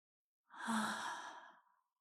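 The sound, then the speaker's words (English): A deep breath is let out through the mouth in a single soft, breathy exhale that lasts about a second and is heard alone against silence. “take a deep breath in through your nose. Hold it and exhale through your mouth.”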